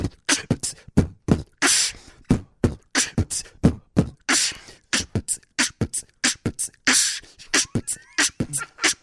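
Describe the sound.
A voice beatboxes a 'boom boom cup of tea' rhythm with the vowels removed, using only consonants to imitate drums. Deep kick-like thumps and sharp hissing snare bursts repeat in a steady, quick groove, with many percussive mouth sounds and no other sound.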